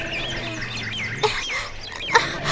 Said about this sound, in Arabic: أما الديك فقد صاح بأعلى صوته